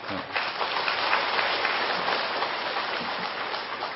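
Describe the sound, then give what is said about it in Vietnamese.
Audience applause at a Buddhist lecture: a dense, continuous patter of clapping that holds a steady level through the whole clip, like a soft roar of many hands. “Chắc vị vỗ tay đặng buộc tôi phải trả đó đúng không?”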